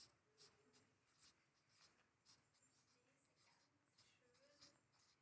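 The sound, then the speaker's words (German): Handwriting: quiet scratchy pen strokes come in short, uneven bursts, very faint over a low background hiss. “mal schauen, ob ihr das wieder lesen könnt. Ich schreibe ganz schön.”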